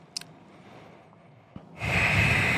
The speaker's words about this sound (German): Einmal den Druck erhöhen, einmal so eine Grenze fahren und dann einmal tief schnaufen. Also ich schnaufe meinen Druck weg.